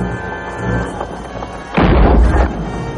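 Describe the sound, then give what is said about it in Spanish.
Cannon fired by soldiers in a river battle in colonial South America: a single deep, heavy boom bursts out midway over a lower rumble, then decays back toward the background. “Colocan el cañón en posición y disparan.”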